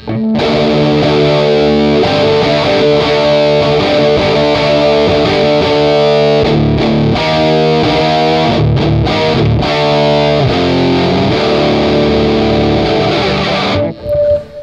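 Distorted electric five-string bass guitar tone, loud and sustained, with thick, buzzing harmonics and effects coloring the notes, playing continuously for about fourteen seconds before cutting off briefly near the end.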